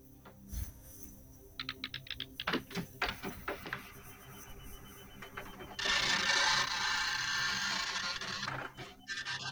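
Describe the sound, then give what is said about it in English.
Dot matrix printer printing: a few short rattling, buzzing passes and clicks, then a louder, sustained raspy grinding run that fills the second half before breaking off. “Dot matrix printer. I left dot matrix printers.”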